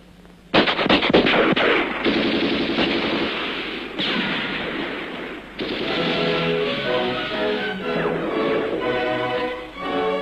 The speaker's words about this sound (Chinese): 敌人的枪声现在却成了祝贺起义成功的鞭炮。